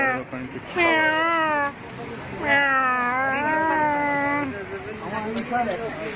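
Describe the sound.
A cat meowing in several drawn-out, wavering calls that rise and fall in pitch, fairly loud, with short gaps between them and background noise throughout.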